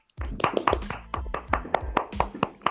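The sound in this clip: Hands clapping in celebration: many sharp, even claps in a steady rhythm that runs almost without a break.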